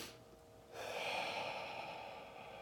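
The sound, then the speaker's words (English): A slow deep breath during a guided relaxation exercise: a soft, airy hiss that swells after a brief quiet moment and holds steady for about two seconds, faint and with no talk over it. “One more deep breath.”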